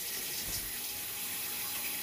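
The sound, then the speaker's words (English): Water pours steadily while dinner is being made, a continuous soft rushing hiss with no breaks. “Pouring water right now. I'm in the middle of making dinner for my babies,”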